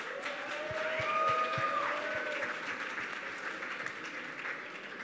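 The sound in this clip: An audience claps on stage to welcome music company Love Renaissance to a SoundCloud panel conversation. The applause is quite faint, a soft, even spread of many hands with a few sharper claps early on, slowly thinning toward the end.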